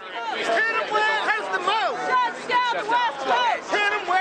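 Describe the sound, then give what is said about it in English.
Occupy protesters chant outside a Port of Seattle facility, a crowd of voices repeating a short chant in a steady, rhythmic pattern of rising and falling calls, moderately loud throughout. “That is the sound of Occupy protesters chanting outside a Port of Seattle facility Monday.”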